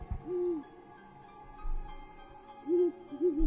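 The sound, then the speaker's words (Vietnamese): A scops owl hoots at night: one soft, hollow hoot, then after a pause three more in quick succession, faint against a quiet background. “Một con cú mèo từ trên bàn thờ bay vụt ra qua cái ô thoáng. Sau đó cất lên những tiếng kêu thảng thốt, biến mất trong màn đêm.”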